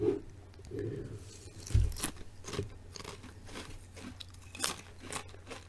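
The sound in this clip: Crunching of Calbee lightly salted potato chips being bitten and chewed: a few sharp, dry crackles stand out, with quieter chewing crunches between them and no talk.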